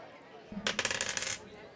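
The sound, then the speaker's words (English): A six-sided die rolled on a table, giving a brief, fairly faint rattling clatter of many quick small ticks that bounce and die away within about a second. “roll a d6 for me”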